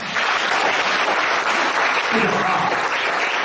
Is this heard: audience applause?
yes